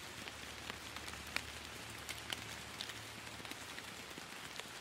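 Steady rain falls on stone and concrete under an overcast sky, making a dense, even hiss dotted with scattered sharp drop ticks, over a faint low hum throughout.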